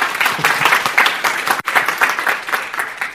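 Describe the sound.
Audience applause welcoming a speaker to the stage at a research conference: steady, dense clapping that fills the whole stretch, loud throughout, with one brief dip midway before it picks up again.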